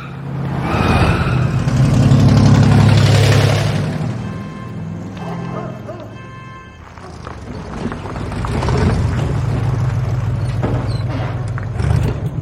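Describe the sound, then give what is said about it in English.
A truck backs up and then drives away: a loud engine rumble swells, dips, and then builds again as the vehicle accelerates off, filling the whole clip with no clear talk. “Diane gets out, Jack backs up and drives away.”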